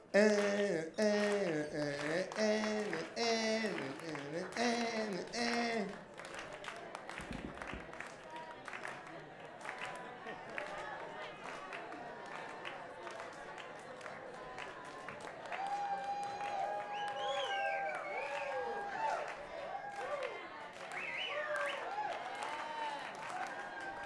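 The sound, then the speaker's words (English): Audience at a cabaret show clapping along together in a steady rhythm. A voice is heard over the opening seconds, and the group's clapping continues beneath voices for the rest of the stretch. “Clap, we start with clapping again, yeah? And now.”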